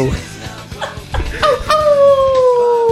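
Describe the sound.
A person imitates a wolf howl: a long sustained vocal tone that slowly falls in pitch and holds to the end, following a stretch of chatter and voices.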